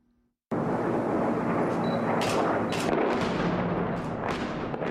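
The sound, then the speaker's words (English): Russian airstrikes hit the rebel-held city of Aleppo. After a moment of near silence, a loud, dense roar of blasts starts abruptly and keeps going, broken by a few sharper bursts cracking out above it. “The sounds of Russian airstrikes targeting the rebel-held city of Aleppo earlier this month.”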